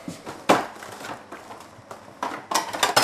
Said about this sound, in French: Donc je vais vous couper le travers du veau.